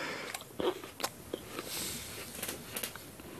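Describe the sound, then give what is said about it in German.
Someone bites into an apple, making a few crisp, sharp crunches followed by quieter chewing, all faint and without talk. “Ich werde in der Zwischenzeit mal kurz in meinen Apfel beißen, ja, nur damit keine Verwunderung aufkommt.”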